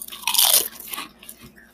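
A crisp crunch of someone biting into ketchup-flavoured potato chips, one loud sharp bite followed by softer chewing crunches that fade, with no talk.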